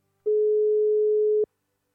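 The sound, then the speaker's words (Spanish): A steady telephone line tone sounds while a call is being dialed: one sustained mid-pitched beep lasting a little over a second, clean and even, with silence before and after. “Vamos a comunicarnos, ¿verdad? Le vamos a marcar aquí para que ella pueda conectarse.”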